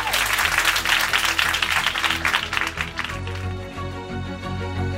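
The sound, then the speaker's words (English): Audience applause at a live debate event: dense, loud clapping for about three seconds, then it thins out and gives way to steady tonal music. “Give a big hand to Ensay and Camille.”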